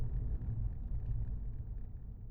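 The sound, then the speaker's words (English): A car on a drive ending at a long, winding driveway to a farmhouse gives a low, continuous rumble that stays steady throughout, with no voices. “the Oponas continue their drive in a sullen silence, eventually turning down the long, winding driveway leading to Grandmother's farmhouse.”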